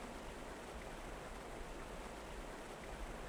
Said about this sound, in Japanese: せせらぎが気持ちいい。